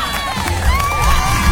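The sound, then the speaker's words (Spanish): A crowd cheers and shouts with high, excited voices, forming a continuous loud roar that swells slightly toward the end. “Aplausos, aplausos para esas madres. Aplausos. ¡Bravo!”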